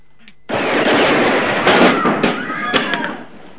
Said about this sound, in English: He eyes the painted sign, Ransom Stoddard, Attorney at Law, and shoots it to pieces.